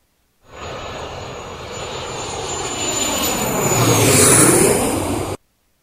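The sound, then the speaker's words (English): Airplane engines roar during takeoff, a broad, rising rumble topped by a thin, high whine that climbs louder toward the end before cutting off abruptly. “Cabin is secure. All right, clear for takeoff.”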